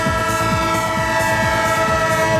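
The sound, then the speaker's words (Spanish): Train sound effect: a sustained, steady tonal drone like a horn over low, repeating rhythmic pulses of rolling wheels, continuous and loud with no voices. “el tren de Onda Cero, claro que sí, el tren de las 8-7 en Canarias, el tren que te sigue llevando”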